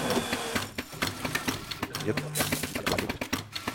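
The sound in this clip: An automatic coffee machine with a grinder set one step finer brews a 35 ml espresso at low temperature, giving a rapid, rhythmic mechanical clatter of steady pulses.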